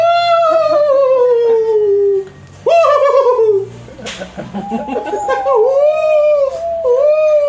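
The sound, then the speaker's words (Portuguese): A dog howling and whimpering, with several long, wavering high-pitched howls that slide downward, broken by a brief pause and a stretch of shorter yips and whines, loud throughout. “Cachorro.”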